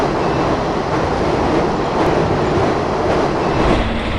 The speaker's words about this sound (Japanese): この列車どこに向かってるんだ。